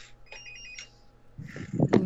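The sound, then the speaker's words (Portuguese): A telephone rings during a home-goods store's sales segment: a brief, bright electronic trill sounds in a couple of quick pulses, followed by a voice talking. “Meu telefone está tocando. Muitas vendas.”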